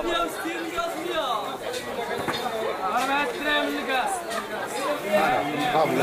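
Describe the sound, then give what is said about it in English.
Merchants bargain in the Medina of Fez, Morocco, in a busy market babble of overlapping voices. Several people talk at once in a steady, lively hubbub with no single voice standing out. “The sounds of bargaining ripple through the Medina, and the merchants of Fez are master salesmen.”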